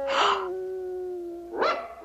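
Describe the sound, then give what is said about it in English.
A Scottish terrier barks into a drainpipe: two loud barks bridged by a long, steady, howling tone. “He dashes over to a drainpipe on the side of a building and barks into it.”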